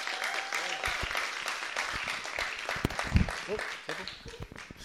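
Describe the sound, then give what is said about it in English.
Audience applause welcomes a pastor to the stage at a Brisbane church gathering, busy clapping mixed with cheers and voices that swells briefly and then eases toward the end. “So I want you to put your hands together and give a great Brisbane welcome to Pastor Nelly Atiga.”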